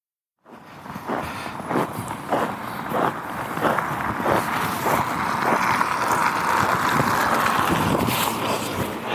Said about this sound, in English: Just walking now outside the hotel here, Friday evening, going down to a local Italian pizza place.